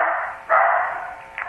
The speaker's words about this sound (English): Oops, there go my dogs. That's okay. Sorry.